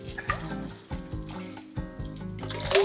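Cold water sloshing as cooked soba noodles are rinsed and the water is changed. A few splashing bursts stand out over a sustained tonal background.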